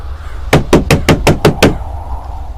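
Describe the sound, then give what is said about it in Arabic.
Knocking on an apartment door as a radio drama effect: seven sharp, loud raps land in a quick, evenly spaced series, then the room falls back to a low background hum. “سمعت الخبط على الباب، نطيت من مكاني.”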